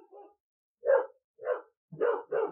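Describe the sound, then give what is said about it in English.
Dogs bark in short, sharp bursts: a faint bark first, then four louder ones spaced with brief pauses, the last two coming close together. “dogs. Just what I was thinking. Yes. Barking.”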